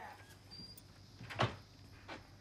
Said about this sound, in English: Ellis scuttles down some steps and opens the door to the house.